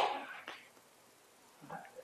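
A single faint sneeze bursts out at the start during a church sermon, followed by near silence and a brief soft murmur.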